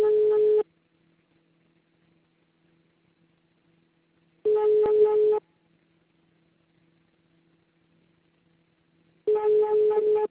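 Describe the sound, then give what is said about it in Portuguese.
Telephone tones follow an automated answering message: three loud, steady, buzzy beeps, each about a second long, separated by roughly four seconds of near silence with a faint hum. “Atendimento digital. Após o sinal...”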